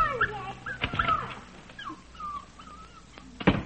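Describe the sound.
A dog whimpers and whines in a string of high, thin, wavering cries, some rising and falling, with a louder, harsher burst near the end.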